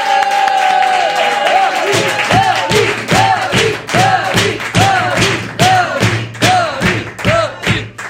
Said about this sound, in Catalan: Però per si de cas, rebem amb un fort aplaudiment a David Fernández!